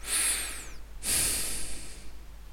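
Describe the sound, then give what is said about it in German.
Deep breathing into a tiny headset microphone on a boom arm, placed about four fingers' width to the side of the mouth: one long hissing inhale, then a breathy exhale with loud wind-like blowing noise on the mic. “Ich atme jetzt mal tief ein und aus, um die Blasgeräusche zu hören.”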